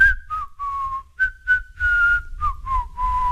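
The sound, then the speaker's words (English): A person whistles a cold, quiet tune through the teeth: a string of short, mid-pitched notes, some sliding slightly downward, then longer held tones, soft and alone over a low rumble. “A cold, quiet whistle between his teeth”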